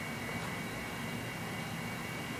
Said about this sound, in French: essayer d'écouter le bruit des avions,